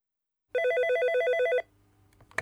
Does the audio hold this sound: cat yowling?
no